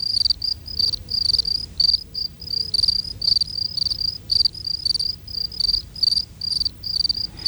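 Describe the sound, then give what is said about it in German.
Three field crickets chirp together: one sits in shade and sings slower, while two sit in warm midday sun. Loud, high-pitched pulsed chirps repeat steadily throughout, with no voices. “Die eine Feldgrille singt langsamer als die beiden anderen.”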